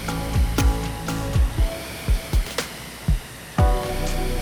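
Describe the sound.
Steady airy whir of a Concept2 RowErg rowing machine flywheel spinning during a workout, overlaid by many short low thumps that slide downward in pitch at an uneven rhythm.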